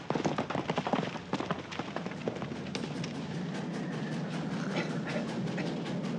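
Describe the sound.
A train rolling on rails at night as passengers sleep: a steady, dense rumble with many sharp clacks and rattles, more pronounced in the first second and then settling into a continuous clatter.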